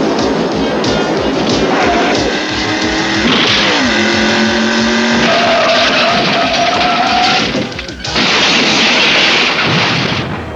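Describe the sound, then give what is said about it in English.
A video-game car crash sends parts and doors flying off. A loud, continuous engine roar and skidding carry shifting whining tones, with harsh noisy bursts and a brief dip before the roar resumes. “It's really the first time that we got some major damage. I think we've had Switchblade crash a couple times, but nothing like this where you got like parts flying off and doors flying off.”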